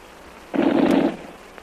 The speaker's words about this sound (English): Girl come to window with lamp. Machine gun start shooting, Twan.